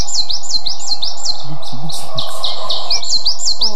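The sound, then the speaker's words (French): Coal tit song: a quick series of repeated high, bright two-note phrases, evenly spaced and clear, with a faint low rumble underneath. “La mésange noire, qui adore les conifères, elle.”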